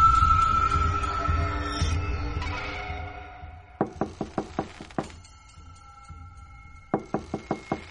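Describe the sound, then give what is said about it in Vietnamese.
Hard knocking by hand on the door of a room in a row of rented rooms. Two quick bursts of several sharp raps, with a few scattered knocks between them, follow a fading tonal, musical sound. “Tiếng gõ cửa đã không ngừng vang lên bên ngoài của một căn phòng trong dãy phòng trọ.”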